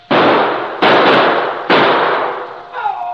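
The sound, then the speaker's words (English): Gunshots ring out at people in a car during a chase: three loud, sharp blasts, each followed by a long, slowly fading tail, then a fainter rustle at the end. “Hey, they're shooting.”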